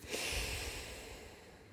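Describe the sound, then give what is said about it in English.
A deep breath exhaled slowly during a guided grounding exercise, a soft, airy rush that starts strongly and gradually tapers off over a couple of seconds, faint and heard alone. “take a big, deep inhale in. Hold it for a moment at the top before letting it go.”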